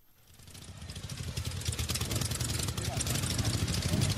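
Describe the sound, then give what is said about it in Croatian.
Motorcycles of various sizes, engine capacities and equipment roll in as a column into Krajina Square in Banja Luka, their engines a steady, throbbing roar that swells gradually from faint to loud. “U koloni veliki i mali različite kubikaže i opreme na Trg Krajine pristigli su brojni dvotočkaši.”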